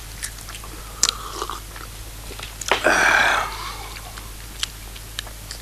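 Chewing pomegranate seeds, with scattered crisp bites and small wet clicks and a louder, denser burst of crunching near the middle against a low steady hum.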